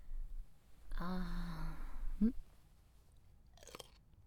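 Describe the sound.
Food is chewed and bitten, with soft mouth sounds and a few crisp, crunchy bites, plus a brief hummed voice in between, all fairly quiet.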